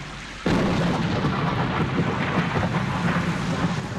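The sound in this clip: Heavy rain with thunder starts abruptly. A dense, loud, unbroken roar with a low rumbling underneath carries on steadily for several seconds.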